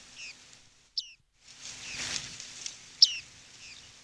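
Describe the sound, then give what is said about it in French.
A bearded reedling gives a few short, high, metallic calls, faint and spaced apart over a soft, rising swell of background noise. “196, mésange à moustache.”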